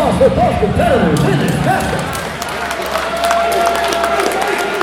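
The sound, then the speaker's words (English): Crowd applause and cheering for the boxers at a ballroom boxing match: a dense, loud wash of clapping and crowd noise, with a man talking over it at the start. “Let's give a round of applause for both”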